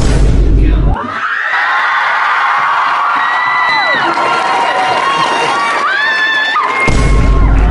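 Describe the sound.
An audience cheering a guest's entrance with loud, sustained whoops, shouts and high excited cries that swell for several seconds and then break off.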